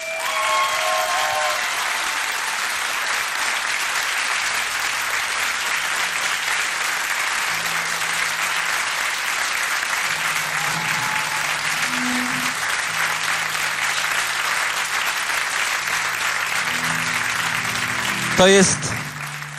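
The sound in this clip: At a radio awards concert, an audience gives another round of applause while the band prepares, a long, unbroken roar of clapping that stays loud and even for nearly twenty seconds, with some voices mixed in.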